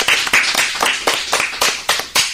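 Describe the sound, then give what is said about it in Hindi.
Children applaud in a classroom with a brisk, steady clapping rhythm. Sharp bursts repeat evenly and loudly for the whole moment, with no talk over them. “जोरदार तालियां हो।”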